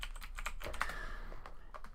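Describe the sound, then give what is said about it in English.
Fingers tap on a computer keyboard in a fairly soft, irregular run of many quick key clicks, with no voices. “let's let's type in Clinton.”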